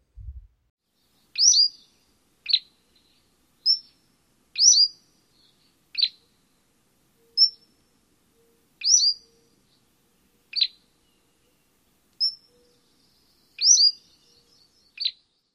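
Cordilleran flycatcher song: a steady series of short, high, thin chirped notes, spaced about one to two seconds apart, with silence between them and no other sounds.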